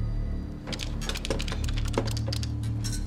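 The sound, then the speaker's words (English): Buttons clicking as a number is punched into a desk phone at a mortgage company office, a quick uneven series of light taps over a steady low hum. “She punches a number into her desk phone and dials.”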